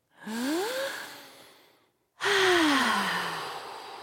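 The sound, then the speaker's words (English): Slow breathing during a group movement game: one long, breathy inhale that rises in pitch, a brief pause, then a longer, louder exhale that slides downward and fades, both faintly voiced. “let's catch our breaths with some slow in and outs all together now”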